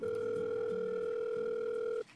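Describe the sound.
A telephone call tone sounds as a steady, unbroken electronic tone for about two seconds before cutting off abruptly, with faint low sounds beneath.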